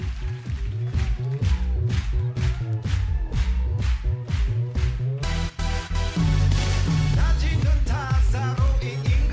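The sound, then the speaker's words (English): Theme music from the TV dance show Strictly Come Dancing plays with a driving, punchy beat and bright brass-like stabs. The arrangement grows fuller and denser about halfway through and stays loud to the end. “That is, of course, the sound of Strictly Come Dancing, which we shall talk about later”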